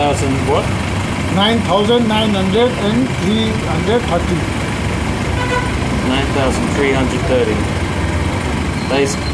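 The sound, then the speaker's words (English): Traffic at a busy, tumble-down gas station on the edge of Kathmandu, Nepal: idling engines rumble steadily while vehicle horns toot again and again, with people talking throughout. “I'm in Nepal. More specifically, a tumble-down gas station on the edge of its cramped, chaotic capital city, Kathmandu.”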